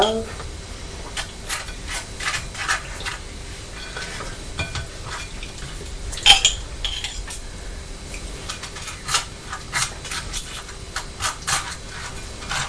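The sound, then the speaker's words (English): A knife scrapes as it spreads something across a slice of toast, making many raspy strokes in an uneven rhythm, with one sharper scratch partway through. “Spreading it on the toast with the knife.”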